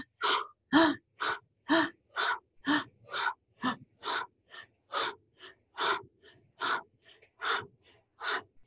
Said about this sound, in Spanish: Ahí cierra tus ojos y empieza a respirar con la boca abierta. Inhalo y exhalo con la boca abierta.